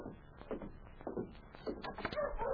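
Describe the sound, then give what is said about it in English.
Dogs bark at someone approaching, a quiet, rough run of repeated barks and yelps with a few whining, higher-pitched cries near the end. “what's that? The dogs, of course. They see someone coming.”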